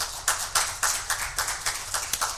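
Scattered audience clapping in praise of performers: a small group beats sharp, fairly regular claps at a quick pace, faint and brief, with no voices over it.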